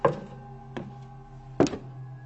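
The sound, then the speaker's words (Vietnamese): Dull knocking thuds on wood from under the bottom of a boat: three irregularly spaced hollow knocks, the last one loudest, over a steady low hum. “Lục cà lục cục là sao? Cứ như là có cái gì va vào gỗ, hoặc cũng có thể là tiếng người ta đi ở trên sàn.”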